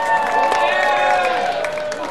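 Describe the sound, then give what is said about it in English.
A baseball stadium crowd cheers as one fan hands a foul ball to a young fan during a Cardinals game in the bottom of the seventh. The loud, steady cheer is mixed with applause and crowd babble. “Big cheer for our fan who gives it to a young fan.”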